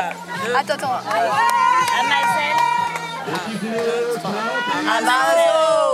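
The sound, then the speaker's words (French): A group shouts their team war cry together, loud, overlapping shouted calls rising and falling in bursts, mixed with cheering and excited chatter. “Merci, on peut te refaire notre cri de guerre ? Bah oui, allez. Bien sûr.”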